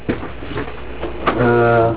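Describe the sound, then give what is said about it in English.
A slow machine rewinding gives a steady, buzzing whir with a stack of even tones that holds for about half a second near the end, after murmured voices and a few soft knocks. “Let it rewind. It's a slow machine.”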